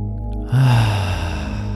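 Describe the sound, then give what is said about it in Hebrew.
A deep breath in and out during a guided self-compassion meditation rises suddenly as a soft, airy rush over a steady, low musical drone, then slowly fades. “ניקח שאיפה עמוקה, ועם הנשיפה נוציא את כל האוויר מהגוף. שאיפה עמוקה.”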